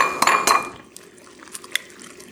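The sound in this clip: An egg cracked into a pan of shakshuka: two sharp clinks in quick succession, then a few fainter light taps.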